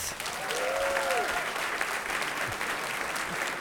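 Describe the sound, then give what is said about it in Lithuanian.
Warm applause from a studio audience welcoming a guest, a former parliament speaker, onto a show, steady dense clapping throughout, with a brief voice near the start. “Ponės ir ponai, pasitikime plojimais.”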